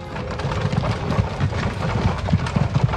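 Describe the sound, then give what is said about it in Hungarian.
Horses galloping out of Paris, a steady rapid clatter of hooves over a continuous broad rumble, with irregular louder hoofbeats throughout. “elvágtattak az Egyetértés tere és az Elíziumi mezők felé, aztán tovább a csillag árkádja alatt, kifelé Párizsból.”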